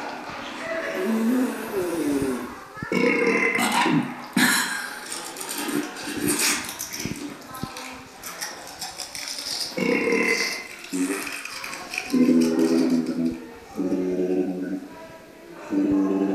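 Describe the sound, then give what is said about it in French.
Burps and other digestion noises, each triggered by a key on a playable sound installation, follow one another without pause: croaking, gurgling bursts of shifting pitch, loud and dense throughout. “Et chaque touche déclenche un autre bruit qui est associé à la digestion. Et l'idée, c'est qu'on peut jouer avec ces bruits.”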